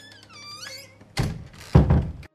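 A door being closed, giving two heavy, dull thuds about half a second apart, the second slightly louder, after a quieter stretch of faint tonal sound.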